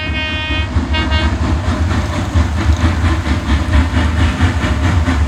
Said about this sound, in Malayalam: വണ്ടി വരുന്നുണ്ട്.